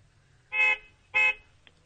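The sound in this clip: A car horn honks in two loud, brassy blasts, each lasting about a quarter second with a short gap between, over a quiet low background.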